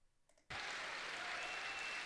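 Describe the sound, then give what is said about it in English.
A crowd cheers and applauds, the noise bursting in suddenly after a faint start and then holding loud and steady. “Look at that crowd cheering.”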